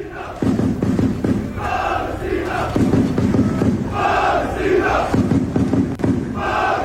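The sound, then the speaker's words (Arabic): Bosnia and Herzegovina football fans chant before a match against Canada: a loud massed crowd roars out rhythmic, repeated phrases in strong bursts, each line answered by the next, over a continuous din. “امبارح كان في هتافات غزت المنصات, هتافات جماهير البوسنة والهرسك قبيل مباراة تجمع منتخبهم مع كندا, أشعلت المنصات وهم يقولون”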